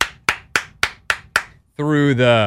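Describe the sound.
Six loud, sharp hand claps land in an even rhythm, each snapping crisply and dying away fast, followed by a voice starting to speak.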